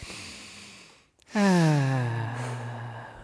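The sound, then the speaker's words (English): A deep breath is taken during a group breathing exercise: a breathy intake, then a long voiced sighing exhale that falls in pitch and slowly fades. “Okay, everybody, three deep breaths.”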